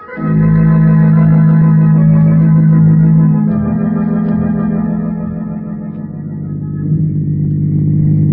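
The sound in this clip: A car drives along an empty road in a radio drama, heard as a loud, continuous low engine drone with a steady pitch that dips slightly midway and then swells again.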